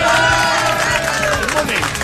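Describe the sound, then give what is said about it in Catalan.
A football crowd at a Barça match against Paris Saint-Germain gives half-hearted applause. The scattered clapping is mixed into a loud, continuous crowd roar with voices calling out. “Aplaudeixen, però no amb gaires ganes.”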